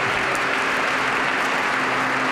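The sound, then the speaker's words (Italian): Audience applause at a choir festival as the next choir walks onto the stage, an even, continuous rush of clapping with no pauses across the short stretch. “grande sostegno, applauso, applauso anche per la prossima corale che sale sul palco.”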